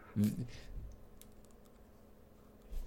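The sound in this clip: Faint typing on a computer keyboard as a chat message is written: soft, scattered key clicks at low level, with a brief voice near the start.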